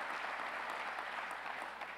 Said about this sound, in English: We can give our senators a round of applause.